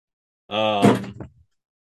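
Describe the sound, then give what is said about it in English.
A wooden chair creaks under someone leaning on it, then breaks with a sharp cracking snap and one smaller crack after it. The sound is brief and fairly loud, with no voices. “I think your chair just broke. Nice. Yep, sure did. It sure did. Wow. What'd you break the chair for? I was just leaning on the chair and it broke.”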